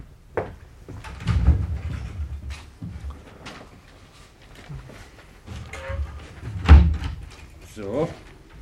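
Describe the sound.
A cupboard is opened to fetch ink and paper, giving a few soft knocks and thumps of doors and contents amid ongoing conversation, with one sharper bump near the end.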